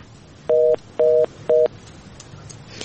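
Telephone tones of an incoming listener call: three short, identical steady two-tone beeps at an even rhythm over faint background hiss.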